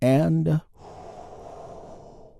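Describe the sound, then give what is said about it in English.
A big, deep breath is drawn in as a guided healing breath, a soft airy inhalation lasting about two seconds that follows a short burst of speech and tapers gently. “we will lead the way by taking a big, deep healing breath. All together, here we go.”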